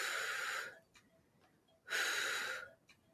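Breathing in and out during an exercise workout: two long, loud, breathy exhalations, each lasting under a second, with quieter faint breaths between them.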